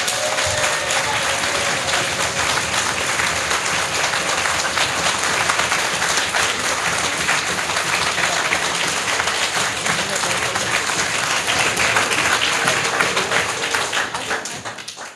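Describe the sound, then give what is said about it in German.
An audience claps loudly on request, a dense and sustained burst of applause that holds steady throughout and tapers slightly at the very end. “dann können wir wahrscheinlich auch bald schon sehen, dass sie ganz schön kräftig geklatscht haben”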